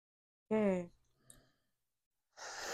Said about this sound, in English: Stop fucking yawning, damn it. I've been up since 2.